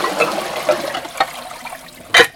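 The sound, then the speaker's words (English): Water splashes and trickles as a bowl is rinsed in a sink, a few soft splashes followed by a louder burst of water at the end. “I'm just washing this bowl up a bit.”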